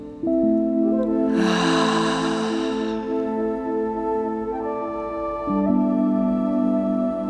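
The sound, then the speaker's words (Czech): A loud, breathy exhale during a breathing exercise: a single rush of air lasting over a second, rising and tailing off above a steady, sustained musical drone. “Zadrž dech. A s hlasitým výdechem to všechno vydechni pryč.”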